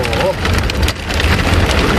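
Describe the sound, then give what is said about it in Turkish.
Heavy rain pours down in a sudden downpour over Ankara, a loud, dense, unbroken hiss of rainfall that stays steady throughout. “Aniden bastıran sağanak yağış tüm hayatı felç etti.”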